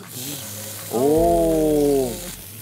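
Meat sizzles in a pan beside pushed-aside onions, a steady hiss of frying that runs throughout and is joined midway by a sustained, humming tone that swells and then fades.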